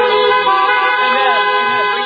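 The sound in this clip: A car horn blares in one long, loud, steady tone that lasts the whole clip without a break.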